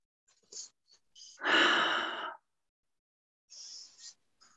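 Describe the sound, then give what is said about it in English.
A deep breath taken during a guided group breathing exercise: a few faint, short breathy hisses, then one loud, long exhale lasting about a second, followed by softer breaths. “So let's take another deep breath together.”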